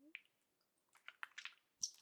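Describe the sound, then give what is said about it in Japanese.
Thick, gooey liquid squelches in a few soft, wet bursts separated by short silences, fairly quiet and close, with sticky clicks between them. “ほーら、足や腰がドロドロの液体に浸かってるでしょ。君の体に絡みついて逃さないように迫ってくる。”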